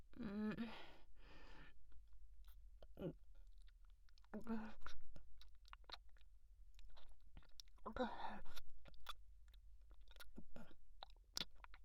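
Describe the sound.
Chewing while eating: many soft, irregular wet smacks and mouth clicks, with breathy whispered vocal sounds and sighs in between.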